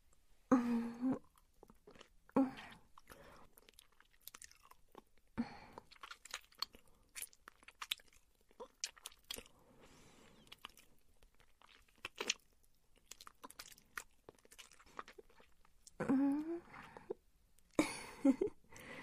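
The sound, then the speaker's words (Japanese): Someone tastes food with faint, wet chewing and crunching in scattered bursts, separated by quiet pauses and a few short vocal sounds. “味見してるのよ。”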